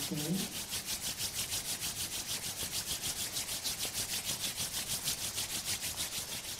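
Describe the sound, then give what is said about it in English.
Palms rub together during a guided relaxation exercise, making many quick, even rasping strokes in a steady back-and-forth rhythm, soft and breathy, after a brief voice at the very start. “Fold your palms. Rub your palms.”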